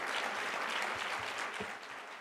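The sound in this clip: Audience applause welcoming activist Tarana Burke to the stage at the Joe Crowley Student Union, University of Nevada, Reno, a full, sustained roar of many hands clapping that continues evenly and eases slightly near the end.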